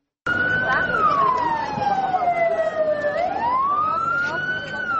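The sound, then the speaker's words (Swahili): Police fire engine sirens wail during a blaze at a Chinese-owned shop in central Bujumbura, a loud continuous tone that glides slowly downward and then climbs back up, with faint traffic noise beneath. “Ni magari ya kizimamoto ya polisi yakikabiliana na moto ulioibuka ndani ya duka hili linalomilikiwa na Wachina katikati mwa jiji la Bujumbura maarufu kama Tedemir.”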